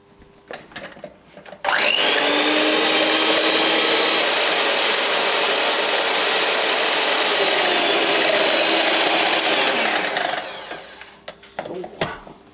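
Cream being whipped thick with an electric mixer: a loud, steady high whir that runs for about eight seconds and then tapers off, with a few clicks and knocks before and after.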